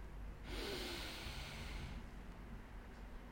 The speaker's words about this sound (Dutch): Adem even heel diep in. via je neus vanuit je buik.